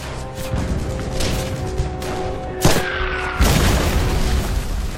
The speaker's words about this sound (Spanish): La artillería enemiga cae cerca de él.